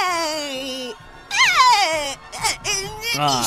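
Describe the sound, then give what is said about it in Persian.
A voice imitates crying as a performance. It produces several drawn-out wailing sobs whose pitch bends and falls, separated by short breaks. “حالا بهترین گریتو تو بهم نشون بده.”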